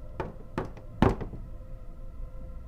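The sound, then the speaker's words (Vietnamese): Three hollow knocks on a door at night in a quiet room with a heart monitor, evenly spaced, the third the heaviest, each followed by a faint low rumble. “bỗng nhiên có tiếng gõ cửa làm tôi giật mình.”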